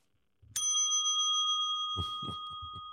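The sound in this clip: A single sharp bell strike, rung during a sports debate whenever someone makes a good point, rings on with a clear, steady metallic tone that slowly fades, with a few low thuds near the end.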